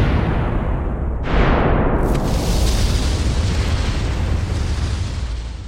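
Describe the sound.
Explosion sound effect: a sudden loud blast that swells into a long, dense rumble and slowly fades, with no voices.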